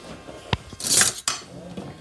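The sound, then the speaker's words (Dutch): Spoon and cutlery clatter in a kitchen while herbs are tossed with vinegar and oil: a few sharp metallic clinks and a brief scraping rush, loud against a quiet background. “Pak even een lepel.”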